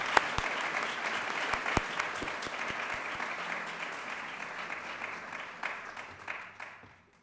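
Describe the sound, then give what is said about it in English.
An audience applauds to welcome a speaker at a World Affairs Council evening in San Francisco. Dense, steady clapping has a few sharper individual claps early on and gradually fades toward the end. “I hope you will all join me in welcoming him tonight and Professor Holloway for this very interesting conversation.”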